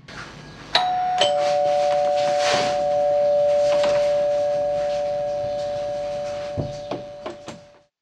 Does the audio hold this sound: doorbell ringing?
yes